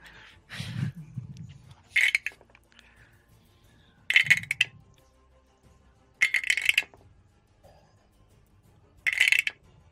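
Dice clatter across a table during a tabletop role-playing game in four short, bright rattling bursts, spaced a couple of seconds apart, with quiet stretches between rolls.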